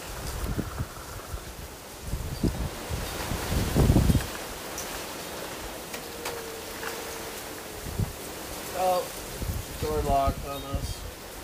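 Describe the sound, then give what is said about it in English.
Wind blows outdoors in rough, rushing gusts that buffet the microphone and swell and ease unevenly, and people talk over it near the end. “Challenge accepted is what the wind just said.”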